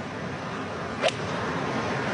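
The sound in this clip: A single sharp crack of a golf club striking the ball on the fairway during an approach shot toward the green, brief and bright over steady background noise.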